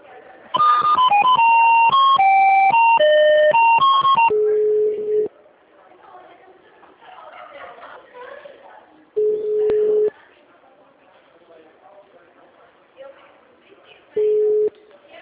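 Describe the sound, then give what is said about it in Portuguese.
Telephone line tones play while a call is transferred and held: a quick electronic melody of beeps, then a single steady tone that repeats every few seconds, with faint voices between the tones. “Só um minuto, vou transferir a ligação, tá?”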